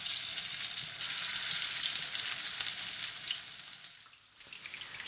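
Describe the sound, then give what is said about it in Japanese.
Lotus root and chicken meatballs sizzle in a generous amount of well-heated oil in a frying pan, a steady, bright crackling hiss that dips briefly near the end before picking back up. “次にフライパンに多めの油を入れてよく熱していきます。先ほど混ぜ合わせたつくねを団子状に丸めて入れていきます。”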